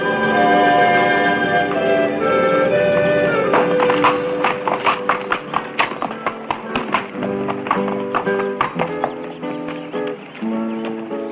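Horse hooves clip-clop on a Mexican village street as a rider enters, a steady rhythmic series of hoofbeats that begins after a few seconds and continues over music.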